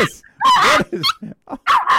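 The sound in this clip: An excited dog gives several sharp, high-pitched yelping barks in quick, uneven bursts, loud and close together.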